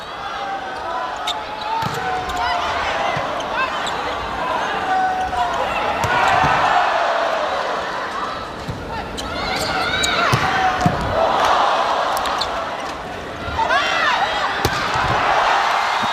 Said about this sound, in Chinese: 现在上海队拿到了第一局的局点，24-20，换上赵哲熙来上来发球。